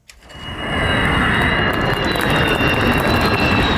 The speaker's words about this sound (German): Februar 24, Jungfernflug des Tarnkappenjägers Khan, made in Türkei. Nur das Triebwerk muss aus den USA zugekauft werden, noch.